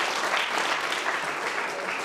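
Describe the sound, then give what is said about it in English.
Audience applause, dense steady clapping from a crowd that holds an even level for the whole two seconds with no voices over it. “give yourself a round of applause.”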